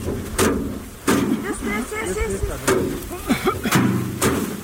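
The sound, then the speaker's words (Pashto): Farmers in Kandahar's Dand district beat harvested basil plants to thresh out the seeds, giving several heavy, irregular thuds roughly a second apart while a man speaks throughout. “د کندهار په ډنډ ولسوالۍ کې کروندګر خپل راټول سوي د ریحان او حاصلات ټکوي تر څو ریحان له بوټو جلا کړي.”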